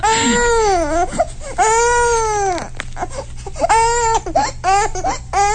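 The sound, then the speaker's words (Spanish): A baby crying loudly, with several drawn-out wails broken by short gasps and catches of breath, then a run of choppier, shorter cries near the end. “Bueno, tal vez tenía hambre. No, ya no llores,”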